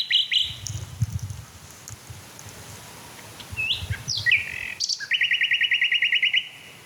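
A male songbird sings over a dim countryside of fields and forest edges, delivering a few high, clear whistled phrases and then a fast, even trill of repeated bright notes, set against a faint low background rumble.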